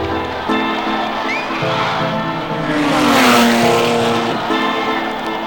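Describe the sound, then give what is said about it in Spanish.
A 500-liter Ferrari race car roars out of the starting pits at speed, its engine note building to a loud peak midway before easing off slightly. “Here's the first entry coming out of the starting pits now.”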